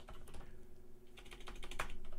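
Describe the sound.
Typing on a computer keyboard: soft, rapid, irregular key clicks, faint overall, over a low steady hum.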